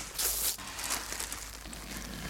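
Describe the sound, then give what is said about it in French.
Crinkling rustle of a diaper's tape tab peeled off and the diaper crumpled, a bright papery burst early on followed by softer scattered crackles. “Je colle, ça pendouille, je décolle, scratch, la couche est foutue.”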